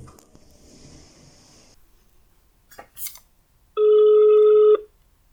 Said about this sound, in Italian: Ah, quanto mi piace il tutù delle chiamate.